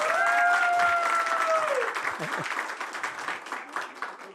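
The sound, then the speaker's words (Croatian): An audience applauds the evening's show with loud, dense clapping. A long, sustained tone glides downward over the clapping near the start, and the applause gradually thins out and fades toward the end. “Dajte jedan veliki aplauz za emisiju večeras.”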